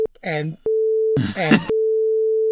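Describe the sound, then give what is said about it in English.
A steady, mid-pitched electronic beep used as a censoring sound effect. The tone runs loud and unbroken between two short bursts of speech and stops whenever someone talks. “and also I'm going to put an actual beep there.”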